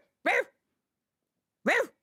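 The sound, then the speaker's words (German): A person imitates a poodle barking with two short, voiced, bark-like yelps separated by more than a second of silence. Each yelp is abrupt and moderately loud. “Ich bell hier mal wie ein Pudel.”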